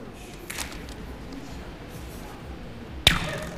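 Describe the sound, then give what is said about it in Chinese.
A rubber band imitates an arrow being shot, giving a single sharp snapping twang that rings off briefly after a long stretch of quiet background. “哦，就是皮筋模拟出来的声音。”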